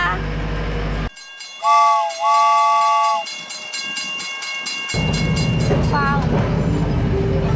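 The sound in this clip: A small sightseeing train pulls away and runs on its rails, sounding two high whistle blasts early on, then a steady rumbling clatter that grows louder and fuller toward the end.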